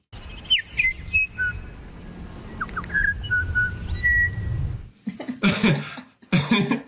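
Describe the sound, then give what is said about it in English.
Musical, tonal piping song of a female bellbird on Burgess Island: a run of clear whistled notes and short chirps over low background rumble, ending with a few rough, noisy bursts. “So just some examples of how musical bellbird song can be.”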